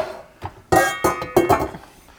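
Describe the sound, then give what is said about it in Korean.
Metal pot lids clinking as they are tried against pots to find matching ones: several sharp, ringing metallic taps with bright lingering tones, irregularly spaced. “맞는 뚜껑들을 지금 조합하고 있어.”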